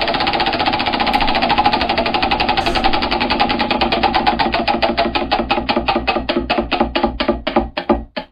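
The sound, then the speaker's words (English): A lottery wheel spins with rapid, even ratcheting clicks that gradually spread apart as the wheel slows, ending in a few widely spaced ticks before stopping. “Well, the wheel's spinning. Won't be long now till we find out who's getting our very first Funk for Four song of the day.”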